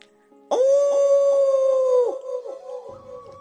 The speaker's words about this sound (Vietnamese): phía trước thu hống như sấm, sói chu trận trận, ba con địa minh lang khuyển chui ra